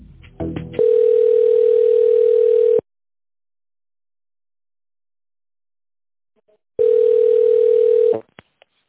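A telephone line tone plays while a call is being transferred. A few clicks lead into a steady, single-pitched tone lasting about two seconds, then silence, then the same tone returns more briefly and cuts off with faint clicks.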